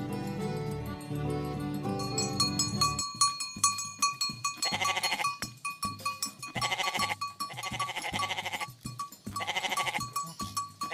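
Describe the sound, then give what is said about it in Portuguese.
Goats and sheep bleating, from Bahia's large goat and sheep herds: a few wavering, nasal bleats come in repeated bursts over a steady rhythmic pulse, after an opening stretch of sustained tones. “Ei, Bahia! Terra do maior rebanho de caprinos e ovinos do país.”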